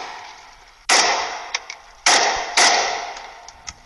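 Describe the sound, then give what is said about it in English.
Gunshots from people firing guns held over their heads: three loud, sharp bangs, each trailing off in a ringing decay, with a few smaller pops between and after them. “So now they're just holding the guns over their heads and shooting them.”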